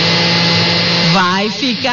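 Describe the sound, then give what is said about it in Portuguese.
A blender runs continuously, mixing recipe ingredients into a green blend with a loud, steady whirring drone, and a voice talks over it in the second half. “Bater todos os ingredientes no liquidificador.”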